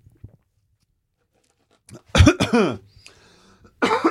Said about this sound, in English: Oh, a little bit of tea went down the wrong way. Because I drank it too quickly.